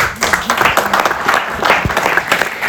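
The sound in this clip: Applause for a recently married woman, a loud, dense clapping from a crowd, steady with slight swells, with some voices mixed in underneath.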